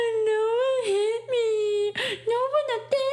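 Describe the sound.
A voice imitates a baby's wail: a sustained, wavering, high-pitched vocal cry in several drawn-out bursts, broken by short gasps, with the pitch wobbling up and down.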